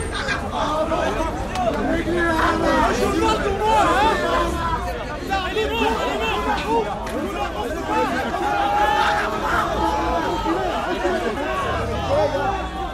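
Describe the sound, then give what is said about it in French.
Crowd noise of Egyptian protesters blocked and encircled by riot police: a dense, continuous babble of many voices, steady and loud throughout, with no single speaker standing out. “Ce qu'on entend, c'est le son des manifestants égyptiens qui ont été bloqués et encerclés par les CRS.”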